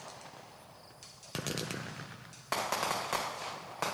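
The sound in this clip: Rapid shots from a fireworks cake, sharp cracking bursts with fizzing, crackling tails; a quieter stretch gives way to dense firing, followed by a louder barrage and a final burst near the end.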